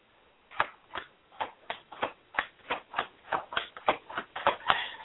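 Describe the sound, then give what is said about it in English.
Tarot cards being shuffled and turned over during a reading about whether a wedding ring is charmed: many crisp, papery snaps in a steady, evenly spaced rhythm, fairly faint and heard alone without talk. “Is it fixed? Turning cards for you. Turn it one more time.”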